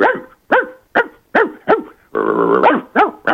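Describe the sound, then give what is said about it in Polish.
A person imitates a small pet dog barking: a quick run of sharp, high yips with an arching pitch, broken midway by one longer whining sound before the yips resume. “Koniecznie muszę się pochwalić swoim talentem do naśladowania pawia i do naśladowania mojego pieska Hektorka. To był paw, a teraz będzie Hektorek.”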